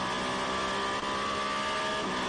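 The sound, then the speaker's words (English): Peugeot and Toyota endurance race cars battle at the Variante Alta, the highest point of the circuit. Their engines make a loud, unbroken roar with a steady whining pitch and no gap or pause. “Peugeot Toyota battle going on at the Varianta Alta, the very top of the circuit there.”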